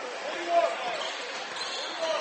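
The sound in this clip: A basketball dribbled on a court during a game: soft, muffled bounces half-buried under a steady wash of crowd noise, with no clear pause in the background din.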